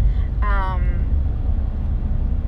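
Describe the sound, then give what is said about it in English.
A car driving to a post-delivery doctor's appointment makes a steady, loud, low road and engine rumble throughout, with a brief voice heard near the start. “And this is the first moment right now, me driving to my post-delivery OB appointment”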